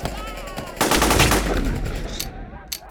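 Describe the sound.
Loud gunfire bursts out abruptly: a sustained, rapid run of shots like a machine gun firing at close range. It dominates for about two seconds, then thins out, with a few sharp cracks near the end.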